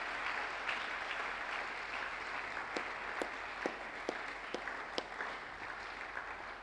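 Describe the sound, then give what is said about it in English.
A church audience applauds at a conference at Day Spring Cathedral. The clapping is steady and dense, with a few sharper single claps standing out, at a moderate, even level throughout. “why don't you put your hands together for the Lord Jesus?”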